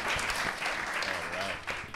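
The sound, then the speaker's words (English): An audience at a film panel event applauds with dense, steady clapping that holds at an even level, while a voice briefly speaks over it. “one more round of applause for our”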